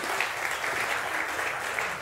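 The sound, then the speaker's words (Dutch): An audience applauds a volunteer who has come up on stage, a thick, continuous wash of many hands clapping at a steady level from start to finish. “Kijk, zij is moedig. Geef een applaus voor haar.”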